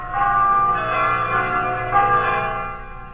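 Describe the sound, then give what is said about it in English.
Church bells peal with bright, resonant ringing tones, alone and loud, with a fresh strike partway through before the sound starts to fade. “That every Sunday peals out, singing in a chorus of church bells throughout the land.”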